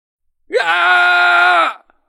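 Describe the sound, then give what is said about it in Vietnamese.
A man's loud shout from a ruler in a fantasy battle: one sustained, voiced cry lasting about a second. It opens with a quick upward pitch swoop, holds steady and strong, then cuts off abruptly, with no other sounds around it. “Vương giả của Hỏa Vân Động hét lớn”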